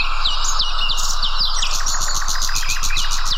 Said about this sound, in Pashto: هلته یې په ځانګړي ډول د مرغانو ژغونو ته ورپام کېږي خو داسې ښکاري چې دا اوازونه له طبیعته په کمېدو دي